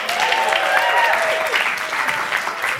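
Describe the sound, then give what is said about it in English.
An audience claps for performers, a dense, steady burst of applause that stays loud and even from start to finish, with faint crowd noise mixed in. “Give them a hand.”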